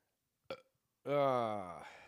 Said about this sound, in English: That was a burp, not a cough.